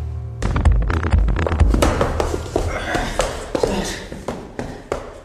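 Footsteps in a hallway sound as many sharp taps and dull thuds in an uneven rhythm, some louder than others, continuing throughout.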